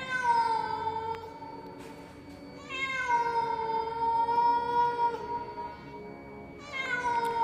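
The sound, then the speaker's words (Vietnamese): A cat yowling in an alley: a few long, drawn-out, mournful cries with a wavering, whiny pitch, each held for a couple of seconds, separated by short pauses. “Tiếng con mèo ở đâu kêu lên nghe não lòng kinh khủng, từng hồi quanh quẩn trong ngõ.”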